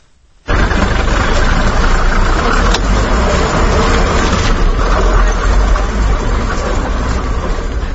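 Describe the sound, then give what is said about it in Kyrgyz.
A city bus drives through the streets of Osh. Loud, steady engine and road rumble starts abruptly after half a second and continues evenly to the end. “Кабарчыбыз Эрнис Нурматов өзбек кыргыз үй бүлөсү айдаган автобус менен Оштун көчөлөрүн кыдырды.”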